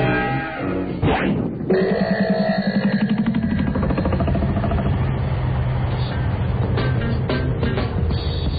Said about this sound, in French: mettez le cercueil dans le corbillard et on est parti.